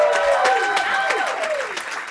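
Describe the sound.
An audience at a live show cheers and applauds for Thundercat, with loud clapping and sliding whoops that gradually fade over a couple of seconds.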